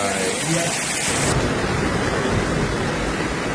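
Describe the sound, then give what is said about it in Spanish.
Floodwater rushes through Tortosa and Santa Bárbara in Tarragona during heavy rain, a loud, dense, steady roar of churning water that stays constant from start to finish. “Este es el sonido de las inundaciones a su paso por Tortosa y Santa Bárbara, en Tarragona.”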